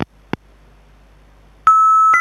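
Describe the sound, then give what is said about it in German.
A mobile phone tries to dial with no reception. Two short clicks sound first, then after a pause a sustained, steady electronic beep tone begins and shifts slightly in pitch near the end. “Komisch, wieso wählt mein Handy denn gar nicht?”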